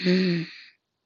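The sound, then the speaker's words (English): A voice demonstrating a shallow deep breath drawn into the chest: a single short, voiced gasping inhale lasting about half a second, followed by silence. “So if someone tells you to take a deep breath and you go,”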